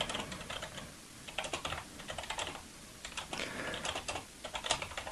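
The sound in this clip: Typing on a computer keyboard while writing a quick note: many light, rapid keystrokes in uneven bursts with short pauses, faint and alone.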